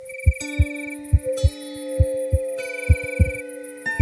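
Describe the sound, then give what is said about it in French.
Heartbeat thumps come in soft, low lub-dub pairs at a steady pace, about four double beats, over a sustained musical drone with faint bell-like tones. “le petit tambour ferme les yeux et entend battre son cœur.”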